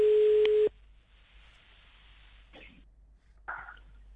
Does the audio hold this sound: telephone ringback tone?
yes